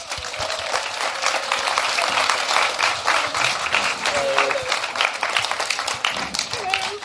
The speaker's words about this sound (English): So I think that deserves a big round of applause from this audience.